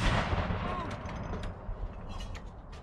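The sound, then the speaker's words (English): A single deep boom from a 41-gun artillery salute fired by horse artillery in Hyde Park, heavy at the start and then rumbling and fading away. “41-gun salute fired by the King's Troop Royal Horse Artillery in Hyde Park.”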